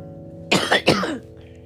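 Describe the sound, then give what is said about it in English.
Three quick, harsh coughs in close succession from someone who cannot stop coughing, loud and clear over a faint steady hum, with no talking. “I'm so sorry for the coughing, y'all. I apologize. I'm getting ready to wrap this up, actually, because I cannot stop coughing.”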